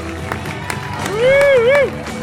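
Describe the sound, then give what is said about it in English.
A crowd applauds and cheers for models on a fashion show's final lap. A steady wash of claps and voices carries one loud, drawn-out whoop that climbs, dips and rises again near the end. “All of the models stream out for one final lap and round of applause.”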